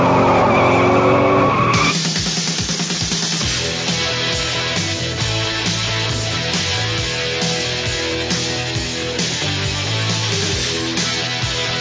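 Tires skid and screech as a car drives off, with a loud, continuous engine roar and squealing rubber running steadily through the whole stretch.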